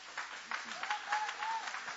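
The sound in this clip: A church audience applauding during an evangelical service: a dense, steady wash of many hands clapping at moderate level, with faint voices mixed in underneath.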